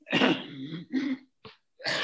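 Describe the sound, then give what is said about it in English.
A smoker's bronchitis cough comes as a few harsh, chesty coughs and throat-clearing bursts, separated by short pauses of quiet. “Excuse me. The old smoking bronchitis that never leaves you. Yeah. I quit smoking 20 years ago, and I still cough like crazy.”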